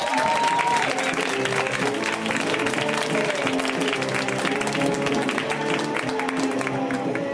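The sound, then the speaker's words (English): Audience applause for a comedian, a steady, even patter of many hands clapping that holds at one level from start to finish. “Let's hear it right now for Susan Burke, guys. Give it up for Susan.”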